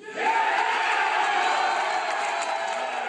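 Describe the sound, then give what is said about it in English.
Boeing union machinists cheer as their contract vote result is announced: a loud, sustained roar of many voices with whoops and shouts that holds steady for about three seconds. “by a 2-to-1 margin, they voted no on the deal. They cheered when the vote was announced last night.”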